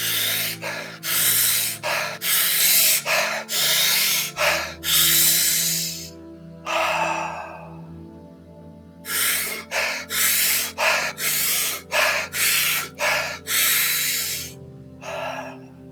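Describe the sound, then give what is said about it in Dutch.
Deep breaths are drawn during a guided breathing exercise in a long run of strong, rhythmic, airy pulses. A soft, sustained musical drone plays underneath the breaths. “En dan gaan we nu eens even heel diep ademhalen, waarmee we onszelf nog 10 keer zo groot gaan oppompen. Doe maar mee.”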